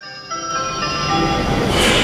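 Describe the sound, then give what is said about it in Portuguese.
An Intercidades passenger train rumbles, with a sustained high ringing tone at first giving way to a broad, rushing roar that swells louder toward the end. “Senhores passageiros, no comboio Intercidades, sentem-se no curso.”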